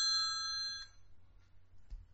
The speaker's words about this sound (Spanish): Ahí está el teléfono.